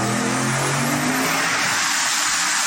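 A rebuilt drag race car of about 1,200 horsepower roars during a full-throttle dyno pull, its engine note a loud, dense, continuous blare held at a sustained high level throughout.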